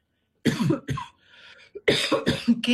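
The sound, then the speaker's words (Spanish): Coughing caused by an allergy: a few harsh, rasping bursts, with a short pair at first, then a quieter pause and a denser cluster of loud, throaty coughs. “tengo tos por alergia, que puede estar provocada por polvo en suspensión”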